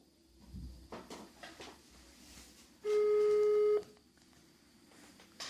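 A telephone call is placed from another number: scattered clicks and handling knocks lead into a single steady electronic tone lasting about a second, then quiet clicks again.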